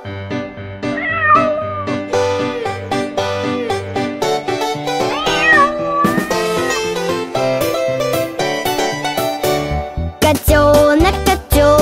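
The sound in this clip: A kitten's meows, high gliding cries, ring out over a bright, loud music backing in a children's song.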